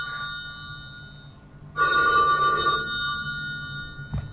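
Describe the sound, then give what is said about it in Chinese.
An old-fashioned telephone bell rings in one loud, bright burst of about a second, with a faint steady tonal hum behind it. “我觉得那个电话铃声要不要我们再给大家放一下，然后我们再把那个电话铃声出来。 非常老， 很久没有听到这样的了。”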